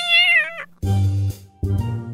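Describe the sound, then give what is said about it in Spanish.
A cat meows three times: a clear, high, tonal first meow, then after a short pause two lower, harsher, buzzier calls, each cut off abruptly, with no other sounds present. “El animal al que le llega su turno es el gato.”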